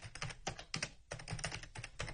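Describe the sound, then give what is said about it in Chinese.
Fingers type quickly on a computer keyboard as someone writes and debugs a program: many faint, rapid, irregular key clicks with a brief pause near the middle, with no voices. “高阳没有回头，两只手上仍然在不停地敲打着键盘。”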